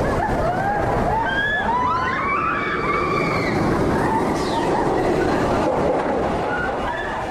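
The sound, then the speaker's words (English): A thrill ride called Falcon's Fury running at Busch Gardens amusement park, with a loud, continuous rushing rattle throughout and a few high, wavering tones over it early on. “So that's exactly what I'm going to experience now as I ride Falcon's Fury, the latest and greatest thrill ride here at Busch Gardens”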